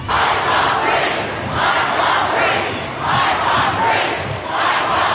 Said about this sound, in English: Sound of more than 1,000 protesters gathering in Sydney for Australia's second peaceful Black Lives Matter rally.